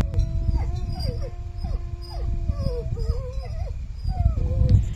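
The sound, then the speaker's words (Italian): A person imitating a wolf howl to call wolves gives a series of wavering, sliding tonal cries over a low rumbling background. “Dopo questo ululato aspetteremo 2 minuti che i lupi rispondano.”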